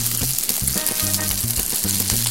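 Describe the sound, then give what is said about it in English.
Vegetables hit a hot frying pan with oil and sizzle steadily, a dense crackling hiss with a low rhythmic thump running beneath it. “So you want to kind of get it, flatten it out there. And while that's cooking, now I'm going to add in”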